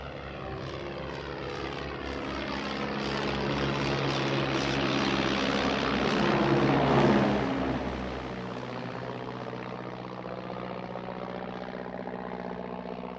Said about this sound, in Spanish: ¿Sabes de qué están hechos? No. De fibra. ¿Dónde va a aterrizar? El truco es no hacerlo.